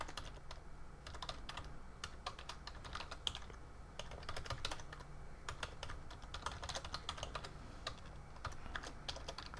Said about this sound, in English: So I'll click the Sign In button and log in with those credentials we just verified.